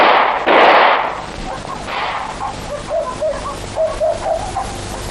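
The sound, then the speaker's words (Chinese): Gunshots being fired: a few loud, sharp blasts in the first two seconds, followed by a run of quieter, shorter bursts. “开枪啊！开枪啊！”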